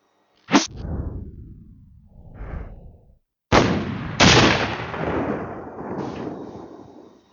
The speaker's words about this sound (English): Try to hit my target and not the exploding breeze block inexplicably placed nearby.